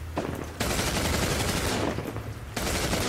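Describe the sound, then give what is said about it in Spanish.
A squad firing guns in a room, a loud, dense roar of rapid gunfire in sustained bursts that blend into a continuous crackling wall of shots, with no talk. “El escuadrón Y dispara.”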